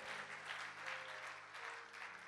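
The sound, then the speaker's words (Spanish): Congregation clapping in praise during a church service, a dense, steady wash of many hands that holds at an even, fairly loud level throughout. “Dale palmas al Señor. Ponte de pie.”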